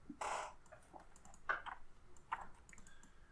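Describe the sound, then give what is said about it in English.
Typing on a computer keyboard: a few faint, quick key clicks spaced irregularly, soft and light with short gaps between them. “I just typed”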